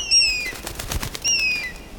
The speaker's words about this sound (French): Mais c'est l'aigle de Tétia. Comment ça se fait qu'il est là?